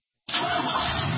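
A car engine starts abruptly after a brief silence and settles at once into a steady, loud, rough roar that holds to the end.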